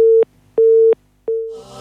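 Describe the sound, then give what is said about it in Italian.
A telephone busy signal sounds after a call line has dropped: three steady, mid-pitched electronic beeps of equal tone with even silent gaps between them, loud and alone, the last one cut short. “come sentite è caduta la linea, noi un po' di musica e ci riproviamo”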